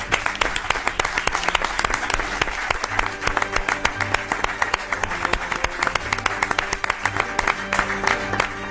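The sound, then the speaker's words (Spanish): Applause from the hosts, given to their audience at four in the morning, forms a dense, continuous patter of many clapping hands. It stays steady and fairly loud for the whole stretch without breaking off. “Y os damos el aplauso nosotros a vosotros.”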